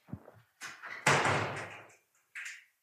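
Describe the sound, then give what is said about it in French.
A door is opened by a dog in an office: a few soft bumps and knocks, then a loud slam-like thud with a rattle, and one last short knock. “ça, c'est mon chien qui sait ouvrir les portes.”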